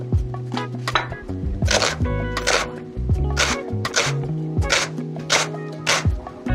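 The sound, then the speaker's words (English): A knife finely chops leek after its end is trimmed off, giving many crisp, fairly regular cutting taps against a board in a steady rhythm. “First of all, we need some leek. So we'll just take that little end off and we're going to cut it fairly finely.”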